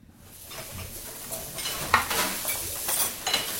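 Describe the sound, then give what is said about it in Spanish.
Cooking in a kitchen: sizzling and stirring mixed with several clinks and knocks of pots, pans and utensils, moderately loud, with no voices. “Estamos cocinando algo rico, algo delicioso, algo nutri sabroso.”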